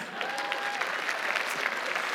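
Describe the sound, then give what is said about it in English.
An audience at a church service applauds, with dense, steady clapping from the crowd throughout. “Come on, give him a big hand.”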